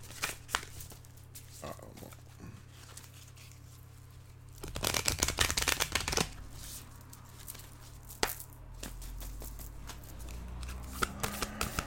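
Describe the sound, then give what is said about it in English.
Starseed Oracle cards being shuffled by hand: soft rustling at first, then a dense, rapid burst of riffling and flicking midway, followed by scattered slaps and lighter shuffling to the end. “So I'm just going to pull another card from the Starseed Oracles.”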